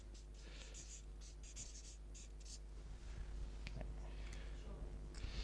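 Faint scratching of drawing on a board, short strokes running one after another over a steady low hum, with no talking.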